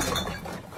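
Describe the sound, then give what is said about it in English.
Coins clinking together in a brief, continuous metallic jingle lasting under a second, busy and rattling rather than a few separate taps. “That's the sound of change adding up.”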